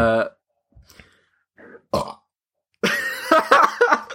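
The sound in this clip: A short, deep, voiced burp opens, followed by a few faint scattered noises and then a longer, rough, louder burst of voiced sound.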